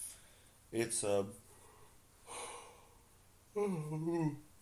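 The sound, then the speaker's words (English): A person yawning after a long mountain-bike stage race, with drawn-out voiced yawns whose pitch sags, separated by a softer breathy exhale. “it's really hard, as you can tell, by the way, I'm yawning.”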